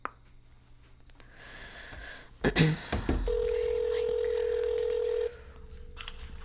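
A telephone being dialed: a few clicks and handling noises, then a steady tone holds for about two seconds before cutting off, over a low background hum.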